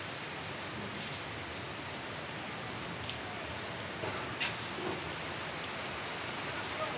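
Rain falls during a summer storm at Colle Castello in Tivoli, a steady, dense hiss of drops with a few slightly louder patters near the end.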